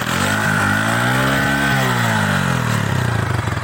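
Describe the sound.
A milk seller's motorcycle engine runs with a steady, throbbing mid-pitched drone. The note swells slightly and then eases back, staying loud throughout.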